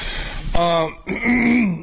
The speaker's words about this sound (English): Let me turn off the mic and finish clearing my damn throat.